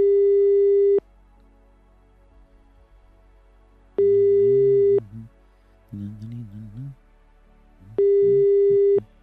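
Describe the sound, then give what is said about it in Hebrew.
Telephone ringback tone from a phone call that goes unanswered: three steady, mid-pitched one-second tone bursts spaced about four seconds apart, with brief talk in the gaps between them. “לא עונה אפרים.”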